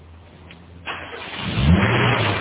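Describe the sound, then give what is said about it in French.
A car engine starts up: a burst of noise as it catches, then a rising, steadier engine rumble that grows louder toward the end. “celle-là démarre au quart de tour.”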